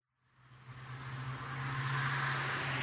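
A car driving past on a road, a broad, fairly faint rush of road noise over a low steady engine hum that swells during the first two seconds and then holds, with no voices.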